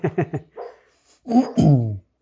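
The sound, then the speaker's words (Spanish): A small female dog gives three quick, sharp yips and then a softer short one. Two longer whining, whimpering cries follow, fairly loud and falling slightly in pitch. “perdón, un momento, mi perrita.”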